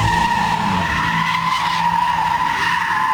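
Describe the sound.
Tires squeal loudly as a car drifts on a street in Gaziemir, İzmir. A steady, piercing screech holds for the whole clip at an even level over a low engine rumble.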